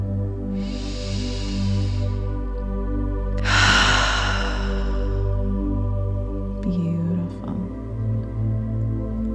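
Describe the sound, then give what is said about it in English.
Slow breaths drawn in through the nose during a post-workout breathwork exercise, heard as two long, airy rushes that swell and fade over a steady low background drone, with no talking. “And now breathing into your throat, bringing it in through your nose, into your throat, and back up.”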